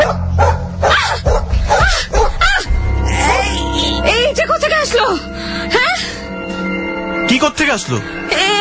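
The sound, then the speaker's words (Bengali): A dog barks, yips and whimpers in a loud, excited string of short, high, bending cries with brief gaps between them. “কিন্তু বিপত্তি ঘটল রাতে, যখন প্রথমবারের মতো কুকুরটাকে দেখল টিয়ারা।”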